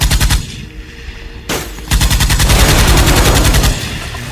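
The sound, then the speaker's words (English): Rapid automatic gunfire in a video game, shooting at laser turrets: loud, fast, evenly spaced shots, with a softer stretch near the start, then a long sustained burst that eases slightly toward the end. “Taste the terrible bullets of justice, vile laser turrets!”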